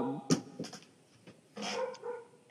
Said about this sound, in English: And we got barking.